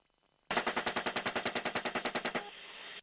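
Military gunfire aimed at a truck: a rapid, evenly spaced burst of many loud shots lasting about two seconds, leaving a steady hum behind, with no talk.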